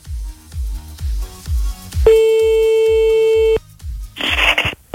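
A steady telephone line tone, lasting about a second and a half, sounds while a call is placed. Under it runs a regular low thumping beat, and a short burst of hiss follows.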